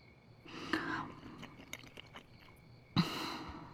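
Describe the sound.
Soft chewing of a bite of grilled cold noodles, kao leng mian, two faint, short bursts of mouth sounds separated by a quiet pause.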